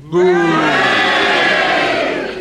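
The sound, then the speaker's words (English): A studio audience cheering a loud, unified hooray during a panel game vote. The shout starts sharply, holds for about two seconds, then fades. “Hooray! I think the hoorays had it just.”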